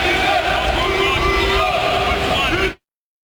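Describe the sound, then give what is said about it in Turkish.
Chanting from about 50 football fans cheering on the Turkish national team at its first training session in Los Angeles: a loud, steady mass of raised voices that cuts off abruptly just before the end. “İdmanı izleyen yaklaşık 50 taraftar yaptıkları tezahüratlarla milli futbolculara desteğini gösterdi.”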